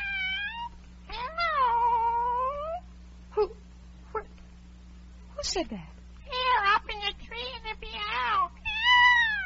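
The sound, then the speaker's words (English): A cat meowing in several drawn-out, wavering calls with short gaps between them, over a steady low hum. “It's the Cheshire Cat from the Duchess's. Cheshire Puss.”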